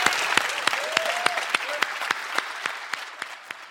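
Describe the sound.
A church audience applauds to welcome those newly born into God's family. The steady, sustained clapping has sharp individual claps popping through the wash, and a brief voice rises over it.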